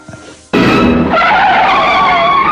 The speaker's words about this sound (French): une voiture C'est une voiture, mais alors, c'est pas ah, n'importe quelle voiture, c'est une voiture rouge.